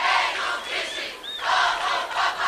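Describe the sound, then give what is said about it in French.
A crowd of young people cheers the pope at a youth gathering with rhythmic songs and dances. The roar is loud and continuous, swelling and dipping, and a brief whistle-like tone cuts through midway. “Benoît XVI, acclamé par la jeunesse, après les chants rythmés et les danses colorées”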